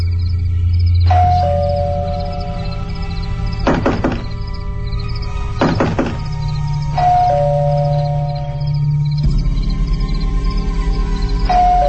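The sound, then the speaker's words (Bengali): An electric doorbell at a home at night, pressed again and again. A two-note ding-dong sounds a few times, with dull thuds like knocking between the chimes, and a steady low hum runs underneath. “অনেকক্ষণ calling bell”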